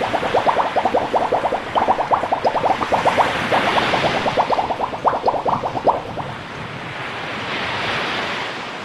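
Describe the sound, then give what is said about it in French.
Underwater ambience evoking the deep sea: rhythmic bubbling pulses over a rumbling wash for about six seconds, then steadier, smoother noise. “J'adore, on se croirait au fond de la mer.”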